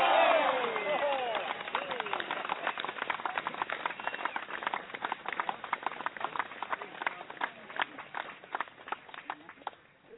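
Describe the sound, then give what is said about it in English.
A crowd's big round of applause: many rapid claps with shouting voices at the start, the clapping continuing densely and slowly thinning and growing fainter over about ten seconds. “Hey, big. Hold on. Big round of applause.”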